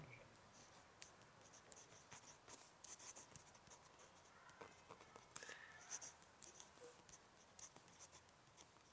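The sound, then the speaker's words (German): Faint scratching of a pen as a dedication is handwritten live onto a football jersey, made up of many short, quick strokes in an uneven rhythm that runs throughout. “Und wahrscheinlich hast du es gleichzeitig mit dieser Episode dann und dem Trikot in der Post. Ich schreibe jetzt hier live rein.”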